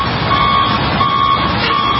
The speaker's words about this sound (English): There's another bus. There's more. It's just everywhere.